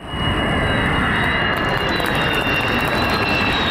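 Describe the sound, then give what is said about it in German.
Steady, loud jet roar from a Turkish-made KAAN fighter on its maiden flight, powered by a US-supplied engine. It holds an unbroken rumbling whoosh with a thin whine on top. “Februar 24. Jungfernflug des Tankkappenjägers Khan, made in Türkei. Nur das Triebwerk muss aus den USA zugekauft werden.”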